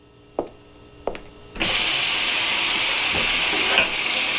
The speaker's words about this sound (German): Wieso waschst du nicht zuerst die Pött ab? Die sind doch fetuschidig. Du musst doch zuerst mit den Glöß anfangen.